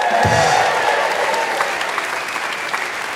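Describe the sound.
A live Christmas special show audience applauds its guest MPs with loud, thick clapping that starts strong and eases slightly over about three seconds.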